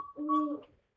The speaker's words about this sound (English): On a spring night, the call of a northern saw-whet owl echoes through the forests of South Central Alaska.